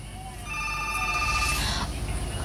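A telephone ringtone sounds while a listener's WhatsApp call is connected, giving a steady high electronic tone for about a second over a low hissy line before it cuts off.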